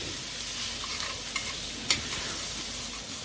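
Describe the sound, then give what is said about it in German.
Stirring and scraping browned bits off a pot bottom while onions fry. A steady, soft sizzle runs throughout, broken by a couple of brief scraping clicks. “So, jetzt werde ich natürlich hier versuchen, möglichst bald den Bratensatz vom Topfboden abzulösen.”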